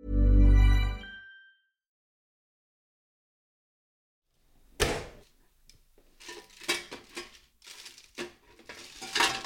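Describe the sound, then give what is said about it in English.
Fish fingers being taken out of the oven: a deep low rumble at first, a short silence, then many irregular clattering metallic knocks and scrapes of tray and utensils. “That was the sound of me taking my fish fingers out of the oven.”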